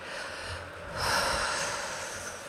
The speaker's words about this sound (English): in and out. Take a deep breath.